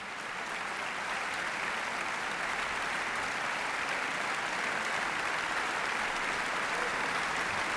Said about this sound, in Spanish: Ha habido una gran complicidad entre orquesta, solista y director que se ha transmitido al público de la sala y por eso agradecen con esta cantidad de aplausos esa conexión.